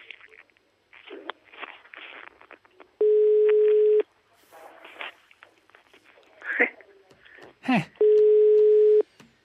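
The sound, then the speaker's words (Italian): A telephone ringing, heard as two long, steady electronic ring tones of about a second each, separated by several seconds of other faint sounds. “Squilla il telefono”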